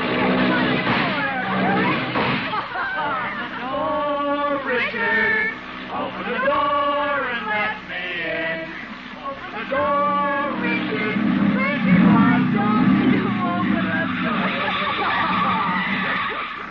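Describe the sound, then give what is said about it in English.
A hopped-up jalopy hot rod drives and skids, its tires squealing in loud, wavering whines that rise and fall over a continuous engine rumble, with voices mixed in. “She is sitting in the front seat of a hopped-up jalopy, or hot rod, with a young man named Jerry Walsh, who is driving, more or less.”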